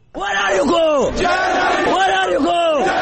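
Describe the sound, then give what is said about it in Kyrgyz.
A crowd of migrants shouts outside Budapest's Keleti railway station, many voices joined in a loud, rhythmic chant repeated over and over. “Будапешттин чыгышындагы келети темир жол бекетине киргизбей койгондон кийин колдоруна билеттерин кармаган мигранттар анын жанында Германия, Германия деп кыйкырып турушту.”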